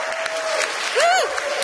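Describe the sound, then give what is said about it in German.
An audience at a literary reading-stage event claps in a light, steady patter, with a short rising-and-falling voiced cheer near the middle. “Kann man mal Applaus machen?”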